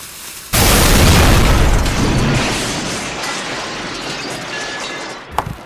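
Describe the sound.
Dynamite blast set off in a hole after a lit fuse: one sudden, loud, broad boom about half a second in, followed by a long, slowly fading rumble and a brief small pop near the end.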